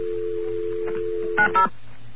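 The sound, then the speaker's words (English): Telephone touch tones on a New York line: a steady dial tone hums, then two short beeps sound in quick succession before the tone stops. “Wait, I think I should dial the number first.”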